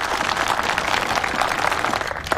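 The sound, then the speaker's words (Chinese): Audience applause before a recital of war poetry, a short, dense burst of many hands clapping at a steady, fairly loud level with no pause. “好，鼓掌。”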